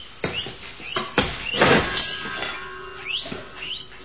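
A rat squeaking in a cage under a bed: several short, high squeaks that sweep upward, scattered among soft rustling and scraping noises, with no voices.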